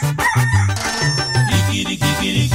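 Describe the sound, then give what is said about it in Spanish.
A rooster crows loudly and repeatedly in rich, harmonic calls over a rhythmic low pulsing background. “Mucha gente me ha dicho que el canto del gallo recuerda cuando uno está mal. El canto del gallito le recuerda a Pedro que traicionaba a Jesús.”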